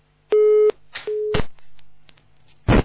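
Telephone busy tone after the caller hung up: two steady electronic beeps with a flat pitch, followed by a few clicks and a short burst of noise at the end.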